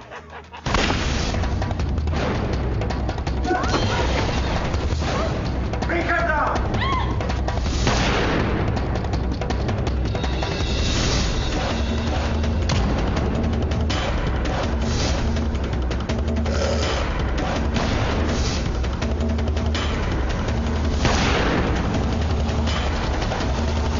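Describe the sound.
Gunfire crackles through a movie scene in a dense, unbroken barrage of shots and booms that runs loud for the whole stretch, with no pause and no clear single reports.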